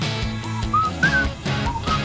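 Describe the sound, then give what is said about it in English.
Whistled melody in a song, with short clear whistled notes rising and falling over the band's steady accompaniment. “And the song that proves whistling makes a song better.”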